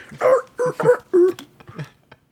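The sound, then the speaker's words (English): Dogs yelling and barking in a short online video, four loud yelping barks in quick succession, followed by a few fainter, shorter yips trailing off. “is it dogs yelling and then it goes into like a Math Rock riff?”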